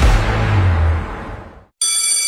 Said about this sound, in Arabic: رن جرس الحملات